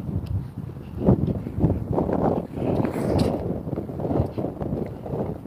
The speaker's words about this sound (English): I got around the corner, that wind is frozen.